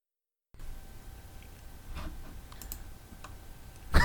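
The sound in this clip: Sparse computer mouse clicks, a few light clicks scattered over a quiet background hiss, with a sharper, louder click near the end and no talk.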